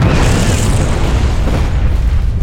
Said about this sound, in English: It was not a grenade, or a mortar, or a rocket. Those are small weapons, designed to kill men. This was a bomb. something big.